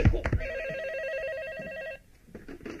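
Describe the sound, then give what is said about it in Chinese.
A telephone rings with a single warbling electronic trill lasting about a second and a half, preceded by a few brief thumps and followed by quiet. “你的电话”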